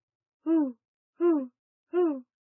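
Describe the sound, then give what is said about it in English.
Owl hooting: three evenly spaced, rounded hoots, each lasting about a third of a second and sliding slightly down in pitch, heard alone against silence. “Owl. The owl is a good listener.”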